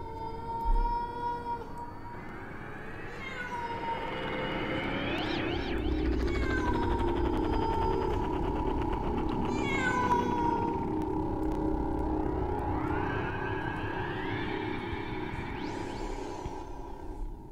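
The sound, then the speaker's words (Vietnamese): A cat on a courtyard wall at night meows mournfully in long, wavering wails that slide up and down in pitch, continuous and fairly faint. “Đâu đó ở bên ngoài, người ta nghe tiếng con mèo đứng ở bên trên tường viện kêu lên những tiếng ai oán.”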